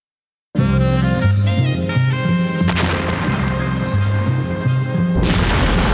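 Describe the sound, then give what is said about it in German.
Crash of Molotov cocktails setting a scrap heap on fire: a loud, sudden onset followed by a sustained roar, with a sharp impact partway through and a hissy noise burst near the end. “Im selben Moment krachte es. Rechts fing ein Schrotthaufen Feuer. Molotow-Cocktails, diese Schweine.”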